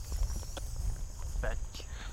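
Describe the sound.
Footsteps of people walking side by side: a few soft, irregular steps over a low background rumble, fairly faint and uneven in timing.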